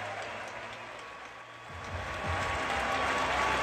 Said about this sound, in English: Standing ovation from everybody, the players, the spectators, the announcers.